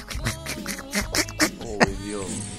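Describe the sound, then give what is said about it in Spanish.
A voice imitates a cartoon duck's quacking speech, producing a loud string of nasal, raspy, garbled syllables with shifting inflection and no other sounds. “¿Cómo dice el pato Donald? ¿Cómo habla el pato Donald?”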